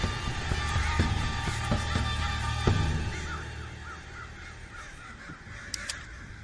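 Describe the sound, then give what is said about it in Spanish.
A flock of crows caws in front of a house, with repeated harsh calls overlapping one another at moderate volume before they thin out. “La bandada de cuervos vuela delante de la casa.”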